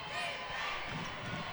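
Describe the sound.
A basketball is dribbled down the court during a game between Faith Family and Chapel Hill, its bounces set against a dense wash of crowd and court noise.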